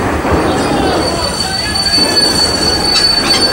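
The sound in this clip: Train wheels squealing loudly on the rails as a train carrying federal troops moves, with a steady, piercing metallic whine over a dense, continuous rumble throughout.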